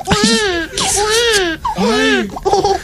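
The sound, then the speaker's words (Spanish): A person's voice imitates a crying baby in loud, high, wavering wails, about four bursts with short breaks between them. “Yo sé hacer como si llorara un bebé.”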